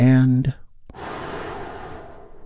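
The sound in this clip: A big, deep breath is drawn in as a long, steady, airy rush lasting over a second. It follows a brief spoken phrase and a moment of silence.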